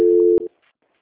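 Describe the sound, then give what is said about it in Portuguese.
Telephone call-transfer tones: a loud, steady electronic tone lasts about a third of a second. A click cuts it off, and a short fainter tone follows before near silence. “eu vou transferir a ligação para a auditoria, tá bom?”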